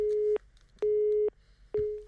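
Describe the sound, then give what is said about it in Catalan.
A phone disconnect tone sounds after a dropped call: three steady mid-pitched beeps, each about half a second long, separated by short gaps and heard alone against a faint low hum. “se mos ha penjat la trucada”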